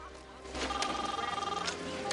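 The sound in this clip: A cell phone ringing with a rapid, warbling trill that repeats steadily, fairly quiet over a low background hum.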